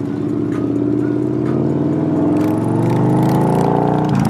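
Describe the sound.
Engine of a white 2014 Victory Cross Country motorcycle running under way: a loud, continuous low rumble holds steady throughout, with no voices.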